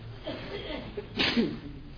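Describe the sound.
A single sharp sneeze cuts through a religious lecture, a brief burst of breathy noise rising above murmured voices.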